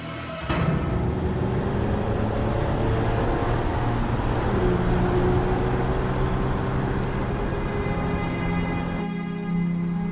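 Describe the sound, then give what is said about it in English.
A car drives along a dark, winding country road at night. A steady engine hum with a low tonal drone sets in after a brief quiet start and continues evenly for about ten seconds under constant road noise. “Car's headlights blaze as it drives along the dark winding road, surrounded by shadowy trees.”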